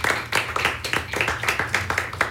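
Group clapping for gaita musicians comes in a steady, rhythmic pulse of distinct, sharp claps at an even tempo, fairly loud with no voices over it.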